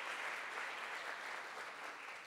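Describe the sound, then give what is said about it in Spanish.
Faint, steady audience applause welcoming two guests at a formal dialogue event, an even patter of many hands that tapers slightly toward the end. “les quiero pedir un aplauso para ambos como esta bienvenida”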